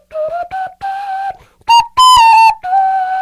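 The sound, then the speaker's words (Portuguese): Whistled melody made with the mouth and beats on the face, a clear, bright tone moving through a series of short sustained notes with brief gaps between them, the later notes louder and higher. “são feitas por assobios, são feitas por batidas no rosto.”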